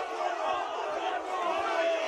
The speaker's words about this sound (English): As the Hurstbridge crowd get right involved.